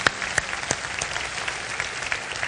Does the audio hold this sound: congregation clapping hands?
yes